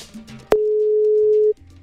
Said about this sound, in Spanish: Bueno, me voy rápidamente a marcar y... Aquí sale la llamada. Se fue la llamada automáticamente.